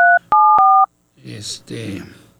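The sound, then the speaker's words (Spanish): Touch-tone keypad beeps as a phone number is dialed: a few sharp, steady electronic tones, one held longer and shifting pitch partway. A short silence follows, then a voice. “Déjeme hacer una llamada a ver si me contesta.”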